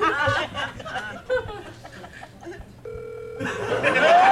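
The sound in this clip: An outgoing phone call rings while waiting for pickup, a single short electronic ring tone that comes after chuckling and talking voices, with voices resuming as it ends.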